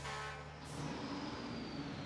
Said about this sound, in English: A fire truck pulling a tender drives out of the fire station.